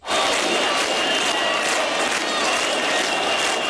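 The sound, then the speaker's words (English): Crowd noise from a nightly protest against a planned luxury resort development on Albania's Mediterranean coast: a dense, steady roar of many voices with shouts and cheering that continues loudly for the whole clip. “plans for a huge new development of luxury properties and a holiday resort there have sparked nightly protests. We heard some of the sound of one of them there.”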